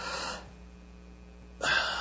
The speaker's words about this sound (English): they will take a deep breath if I'm doing a vagal maneuver correctly